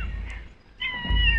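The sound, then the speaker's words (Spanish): A cat meows as it approaches food: a drawn-out, mid-pitched, tonal call rising out of a low background rumble, fairly clear and with no talk over it. “ahora se acerca el gato.”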